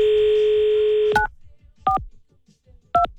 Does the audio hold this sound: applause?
no